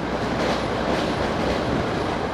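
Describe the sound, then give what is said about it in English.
A subway train running through central Moscow, heard as a loud, continuous rumble with rattling wheels and track noise, steady throughout with no voices. “The subway train returns to central Moscow.”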